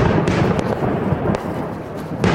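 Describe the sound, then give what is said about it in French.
Firecrackers and fireworks explode at a Diwali celebration as a dense, continuous crackling roar, with a few sharper bangs standing out above it. “C'est une fête où l'on tire des feux d'artifice, des pétards, sauf que tous ces engins dégagent des fumées toxiques.”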